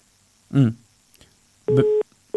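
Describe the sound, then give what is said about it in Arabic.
A telephone busy tone sounds after a call to a radio show drops, with short steady beeps of a single pitch following a brief voice-like sound. “بفتكر انقطع الاتصال مع نيكولا ما بعرف اذا نرجع نتصل مع نيكولا”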